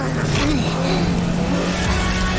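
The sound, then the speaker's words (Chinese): Cartoon car revving up for a rear-end burst charge boost, a loud, steady whirring engine rumble with a faint wavering tone running underneath. “猪猪侠只要控制好，只启动车尾的爆裂冲锋就好。”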